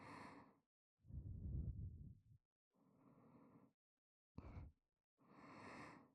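Close, quiet breathing near the listener, with about five soft breaths separated by brief silences. Some are fuller and lower, while others are shorter and airier.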